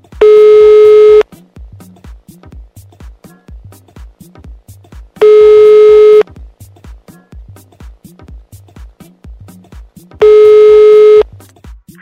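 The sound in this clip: A telephone call rings out with three long, steady ringback tones, each about a second long, evenly spaced with several seconds of near quiet between them.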